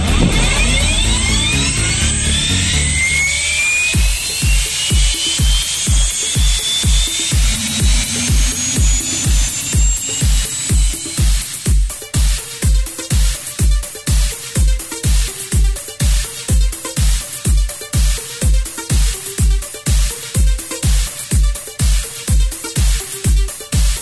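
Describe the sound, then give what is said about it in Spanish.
An aircraft engine starts up before takeoff. A loud whine climbs in pitch over the first seconds, then settles into a fast, steady rhythmic throbbing that continues throughout. “Sir Robert Mix, autorizado, puesta en marcha, vuelva en condiciones para su despegue.”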